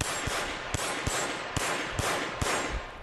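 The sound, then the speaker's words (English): A Glock semi-automatic pistol fires single shots at a gun range. Sharp reports come at a roughly steady pace, about one every half second, over a constant loud hiss. “Many handguns sold by licensed gun stores are semi-automatic. That means just one shot for every squeeze of the trigger, like this Glock pistol recorded at a gun range.”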